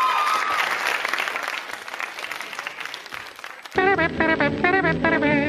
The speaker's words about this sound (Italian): Un applauso, il primo applauso di questa settimana a Raffaele Lombardo